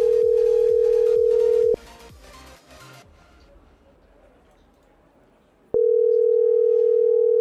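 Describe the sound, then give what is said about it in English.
Ringback tone of an outgoing phone call to a number in SeaTac: a steady, loud single-pitched tone sounds, stops for about four seconds, then returns at the same level. Faint clicks and tapping sit under the first stretch. “Well, the SeaTac's ringing.”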